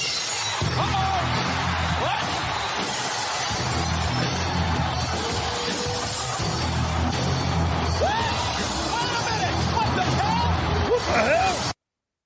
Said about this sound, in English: That dude, that glass shattering just gets me fired up.